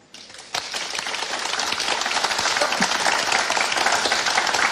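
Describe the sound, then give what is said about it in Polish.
Applause from an audience gathered at an outdoor water market, a dense, steady clatter of many hands clapping that starts abruptly and swells slightly, sustained loudly throughout with no talk over it. “To teraz poproszę, aby tutaj, na ryneczku wodnym, gdzie jesteśmy, jeszcze nie powiemy w jakim miejscu, zabrzmiały takie brawa, żeby każdy wiedział, że nas jest dużo.”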